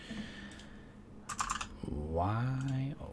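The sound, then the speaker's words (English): A button on a computer is clicked in a short cluster of quick, light taps over faint background noise. A voice speaks right afterward. “So let's click a button.”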